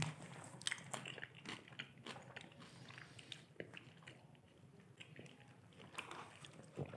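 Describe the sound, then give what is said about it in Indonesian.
Someone eats bread, making faint crunchy bites and steady chewing with many small crackling clicks throughout. “Itu makan apa? Hmm? Itu apa yang dimakan? Roti.”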